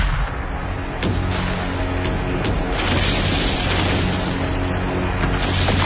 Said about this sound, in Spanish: Un bombardeo desde la flota más grande que ha reunido la Armada.